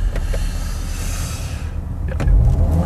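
A Golf GTI with 245 hp total output accelerating, heard as a steady broad engine and road roar from inside the car, with a deeper low rumble swelling toward the end.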